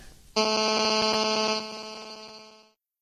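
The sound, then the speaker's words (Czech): A telephone hooting through a live broadcast gives one loud, sustained, buzzy electronic tone that lasts just over two seconds, fading slightly before it cuts off, with nothing else sounding. “jestli slyší houkat telefon do toho vysílání. Pokud ne, tak bychom to klidně, jako já bych to tady oželel, mě by to nevadilo. Ale nechce, aby to rušilo ostatní.”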